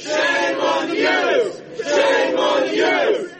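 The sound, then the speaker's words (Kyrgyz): Activists supporting Julian Assange shout "shame" after his court verdict: three loud, drawn-out chants from many voices together in a steady rhythm, with short gaps between. “Ассанждын сот иши каралып жатканда аны колдогон бир канча активист келди. Алар соттун өкүмү чыкканда уят деп кыйкырып жатышты.”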